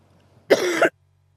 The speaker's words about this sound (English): If you bear with me just a few minutes, I may cough throughout this.